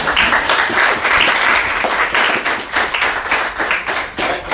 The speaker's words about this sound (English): Yeah, we can clap if y'all want to.